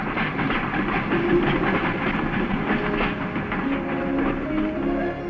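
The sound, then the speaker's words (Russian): A steam locomotive moves along a rail line under a bridge at an industrial plant, producing a loud, continuous rumble overlaid with a steady rhythmic clatter of wheels, with no voices. “Под мостом движется паровоз.”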